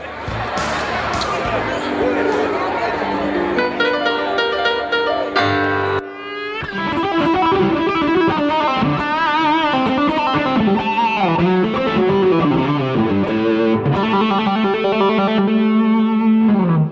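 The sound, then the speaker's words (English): Distorted electric guitar plays the blues scale in A, a steady run of single sustained notes with a gritty, effected tone, pausing briefly partway through before continuing at a similar loudness. “And this is a sound of the blues scale.”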